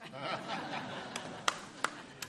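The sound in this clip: A single man in the audience at a sermon claps four times, sharp isolated claps spaced unevenly and heard faintly after some soft chuckling.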